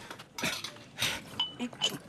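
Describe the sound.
Bowls and chopsticks clink as they are picked up in an eatery: a few bright ringing taps and scattered clatters spread across two seconds.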